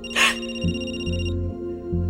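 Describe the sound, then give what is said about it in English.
A mobile phone rings with an incoming call from an unknown caller: an electronic ringtone of sustained, harmonic-rich tones that step between a few notes, opening with a bright burst, with no voices. “It's a text on the mom's phone. unknown caller. You're gonna want to answer this?”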